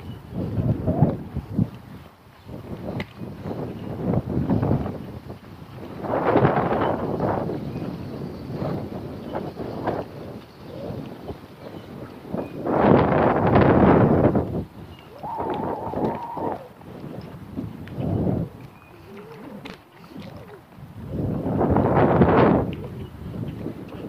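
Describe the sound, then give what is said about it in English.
Steady northeast wind buffets the microphone of someone walking into it outdoors, rumbling in uneven gusts that swell and fade, with several strong surges over twenty-odd seconds and no talk. “now I'm going to walk into the wind. The wind's coming right out of the northeast.”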